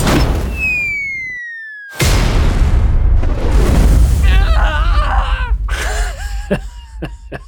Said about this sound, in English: Ratchet back the tensioner. Adjust the targeting using the torsel spanner. And then pull this firing lever.